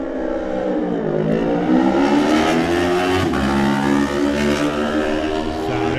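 Supersport racing motorcycles setting off at the start of a race, with loud, high-revving engines that climb in pitch, dip twice at gear changes and climb again, steady and sustained throughout.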